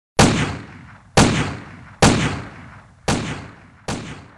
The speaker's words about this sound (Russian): Выстрелы пистолета воспринимались на слух как резкие звонкие щелчки, как удары плеткой.